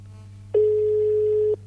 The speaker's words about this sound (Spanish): Ahí está llamando. Está llamando, vamos a ver.